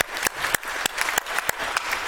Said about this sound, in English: So please clap to all the angels, staff, people.